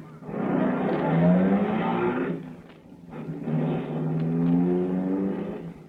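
A car engine roaring as the car speeds off in a rush to an out-of-control fire, with two loud, swelling surges of revving and a short dip between them.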